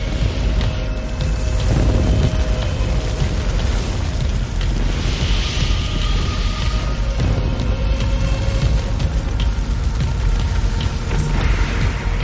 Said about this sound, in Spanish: Dos soldados con lanzallamas abren fuego contra los cuerpos de la zanja.